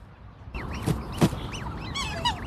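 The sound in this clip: Black swans giving a run of wavering, nasal honking calls from a group of mature birds, several overlapping, rising and falling cries over a steady noisy background, with no talk.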